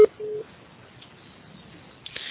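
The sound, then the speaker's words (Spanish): A voicemail recording beep tone: one short, steady, mid-pitched beep over faint telephone-line hiss, followed by quiet line noise. “grabe su mensaje después del tono”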